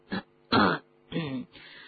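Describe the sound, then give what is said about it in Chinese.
A nervous man clears his throat in a few gruff, rasping bursts, each rough and breathy, the middle ones loudest and the last a softer, drawn-out rasp. “他心神不定，清了清嗓子。”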